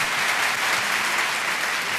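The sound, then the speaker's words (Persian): An audience claps for a young man introducing himself at a talk. The applause is dense and steady, holding at an even loudness throughout. “ولی همه برایش دست میزنه”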